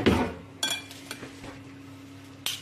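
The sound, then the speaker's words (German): A spoon stirs a feta mixture in a bowl, giving a few scattered, bright metallic clinks against the dish over a quiet, steady low hum. “So, dann müssen wir das umrühren.”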